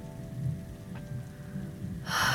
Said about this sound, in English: It's raining. I wonder if they'll even allow any planes to take off in this weather.